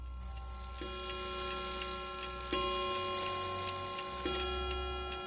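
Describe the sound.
A clock ticking late at night, a slow, regular, faint ticking over a steady electrical hum with a few low tonal shifts beneath it.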